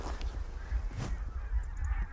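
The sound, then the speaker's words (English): Barnacle geese honk faintly as a small flock drifts from their roost on the Solway into the marshes. A few scattered calls rise over a steady low rumble. “These are barnacle geese. They're sleeping on the Solway, roosting out of the range of foxes and stuff, and this is just them drifting into the marshes.”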